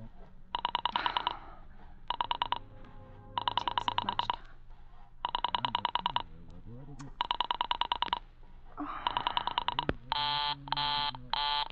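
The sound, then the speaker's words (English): An operator dialing a telephone number on the Murray Hill exchange: several groups of rapid buzzing pulses separated by brief gaps, ending with a few evenly spaced steady tone bursts. “Why you couldn't try to dial Murray Hill 40098 in the same sort of careless way. Murray Hill 40098. I will try to get it for you.”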